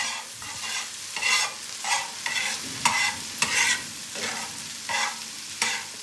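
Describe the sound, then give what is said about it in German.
Sizzling of a fried egg in a pan being turned with a spatula: a steady frying hiss broken by many rhythmic scraping strokes, each a short, bright burst of sound. “Das ist ein Spiegelei in der Pfanne, gebraten mit einem Pfannenwender hin und her.”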